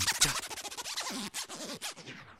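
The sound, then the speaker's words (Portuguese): A DJ scratches a record in rapid back-and-forth sweeps. The wavering pitch gives a raspy sound like a jacket zipper, loud and continuous, with no voices. “Que o som do scratch era parecido com o do zíper da minha blusa.”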